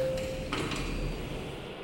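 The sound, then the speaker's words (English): Lift doors sliding, a soft brief rattle of the panels following a steady low tone at the start, heard alone and fairly quiet. “We'll just get on the lift now. Right, the lift.”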